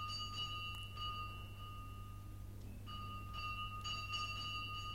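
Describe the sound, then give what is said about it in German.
A bell rings twice in quick succession at a monastery gate at night. The two sustained, bright metallic rings are separated by a brief pause and sound faint over a steady low hum. “Da läutete es 2-mal kurz nacheinander an der Pforte.”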